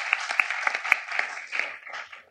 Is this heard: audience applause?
yes